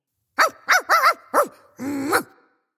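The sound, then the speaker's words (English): A dog barks at the mailman: four short, sharp barks in quick succession, then one longer, drawn-out bark. The barking is loud and alone, with no voices. “Sorry, that's my dog Melvin barking at the mailman.”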